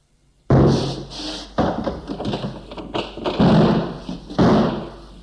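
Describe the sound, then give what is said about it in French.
Heavy thuds of a man battering a bedroom door until it gives way: several loud, dull blows, each followed by a rough rumbling tail, with smaller knocks between them. “la porte a cédé. Le choc a failli le faire tomber.”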